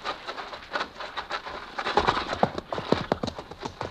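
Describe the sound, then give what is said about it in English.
Hoofbeats from an approaching horseman's mount start faint and sparse, then become denser and more distinct in the second half as an irregular series of soft clops. “There. Look, a horseman.”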